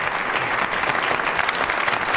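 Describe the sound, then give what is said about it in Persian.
An audience applauds a music group after its performance, steady and dense clapping of many hands at an even level, with a slightly dull, muffled tone throughout. “تشکر از اجرای خوب گروه مینوا، گروهک مینوا. خواهش میکنم که تشویقشون بفرمایید.”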